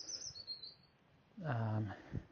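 Faint birdsong at dusk, just after sunset in the UK: thin high chirps and tweets early on, then a louder, lower call in the second half over quiet background.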